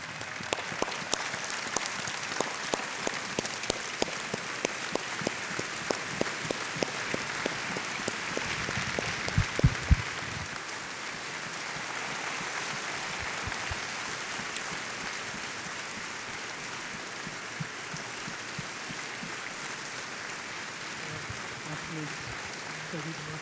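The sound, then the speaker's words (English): Quiet audience applause at a Southern Baptist gathering as a guest is brought out. Sharp, regular claps in a steady beat give way to a softer, continuous patter, with a man talking over it. “Welcome, Zach Lloyd. Let's give him a hand.”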